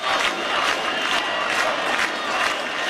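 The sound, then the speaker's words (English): Protesters in Albania chant at a nightly demonstration against a huge luxury property and hotel resort development on the Mediterranean coast. Massed voices shout in a steady rhythmic pulse with cheering throughout. “The sounds of protests in Albania this week. They've been taking place every night over plans for a huge new development of luxury properties and a hotel resort on a pristine stretch of the country's Mediterranean coast.”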